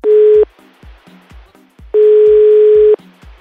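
Telephone ringback tone as a call is placed, heard as two steady mid-pitched tones, a short one and then a longer one about a second long. Faint rhythmic low pulses continue between them, and no one speaks.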